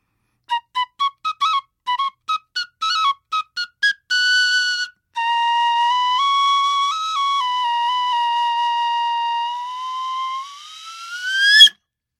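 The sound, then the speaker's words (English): Replica of a 4,000-year-old recorder-style flute playing a quick run of many short, bright notes, then a sustained phrase and one long held tone that steps slightly in pitch and climbs sharply at the end, heard alone. “we have the 4,000-year-old that was clearly a recorder-style flute. And would you like to hear it?”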